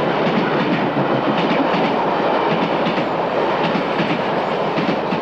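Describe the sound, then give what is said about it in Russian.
A train loaded with tanks rolls past a station in a loud, steady rumble, with rhythmic clickety-clack from the wheels and no voices. “Мимо станции проезжает состав с танками.”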